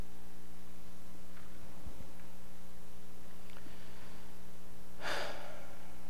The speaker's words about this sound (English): I need a breath here.